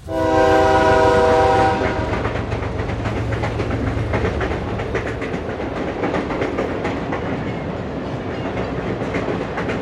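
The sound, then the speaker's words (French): Train journey sounds: a loud sustained horn blast opens, then gives way to continuous rumbling and rhythmic clickety-clack of the wheels running over the rails. “Et le dernier des albums du jour est un voyage, vous l'entendez, un voyage en train, le titre est parfaitement informatif.”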